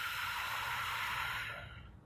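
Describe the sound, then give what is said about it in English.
A deep breath blown out in one long, steady, breathy rush of air that thins and fades toward the end, alone without talk. “Take a deep breath in. Blow it out.”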